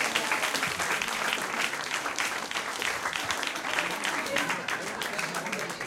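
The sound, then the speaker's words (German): An audience at a stage show claps in dense, sustained applause for about six seconds, with a voice speaking over it. “Mach mal Applaus, mach mal Applaus.”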